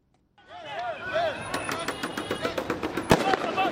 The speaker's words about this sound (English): The sounds of police firing tear gas and protesters in retreat filled the air outside Kenya's Electoral Commission Tuesday